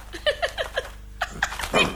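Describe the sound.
A dog snapping and whimpering: a fast run of short, high yelps with falling pitch, a brief pause, then several more whining cries, the last ones louder and rougher.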